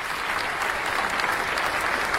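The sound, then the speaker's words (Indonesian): An audience of men and women applauds a team at a school quiz contest, even after the team's wrong answer. The dense, continuous clapping holds steady at moderate loudness from start to finish. “Tepuk tangan Bapak Ibu untuk regu D.”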